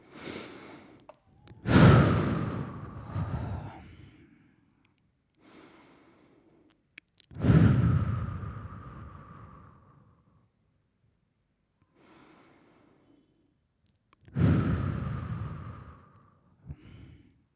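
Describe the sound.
Three deep breaths taken as a breathing exercise, each a loud, long rushing exhale that slowly fades, separated by quieter, shorter inhales, evenly spaced with pauses of near silence between.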